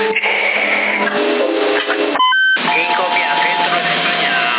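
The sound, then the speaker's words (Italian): A CB radio roger beep on 27 MHz in Sassari sounds as a transmission ends: a brief run of stepped electronic tones sits between stretches of narrow, band-limited radio speech. “Quando smetto di parlare fa piriri. Allora, fa piriri proprio, ma la finisce di parlare.”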